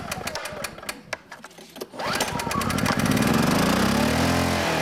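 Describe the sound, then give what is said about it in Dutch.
A very small diesel emergency generator: a few sharp clicks, then the engine catches and rises in pitch to a steady, loud, buzzing drone that holds to the end. “En is dit dan het niveau waarop zoiets de hele dag al klinkt? Ja, ongeveer. Ja. In functie van de grootte, deze is wel een hele kleine, maar een grotere diesel zal misschien nog iets meer lawaai maken.”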